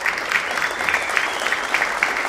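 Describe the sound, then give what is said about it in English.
A studio audience applauds at a live music show, a dense, steady wash of many hands clapping, loud and even throughout. “We also thank the members of our great studio audience tonight for being with us, for supporting the mission of Red Barn Radio. Yes, give yourselves a hand.”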